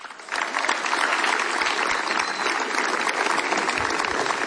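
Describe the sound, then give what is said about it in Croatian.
An audience applauds a singer at a chanson festival. The clapping starts abruptly and then holds as a dense, steady wash of many hands. “a zato ćete i vi nagraditi velim pljeskun”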